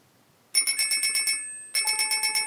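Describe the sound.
A synthesized bell modelled with a reflective Bakelite housing rings in two bursts of rapid, evenly spaced metallic strikes. A bright, sustained tone decays between them, with a short gap before the second burst.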